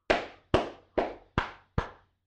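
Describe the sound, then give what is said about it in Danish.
Five sharp claps from people clapping together, evenly spaced and slow, each a loud crack with a long ringing decay, with no talk between them. “Og vi sidder og klapper.”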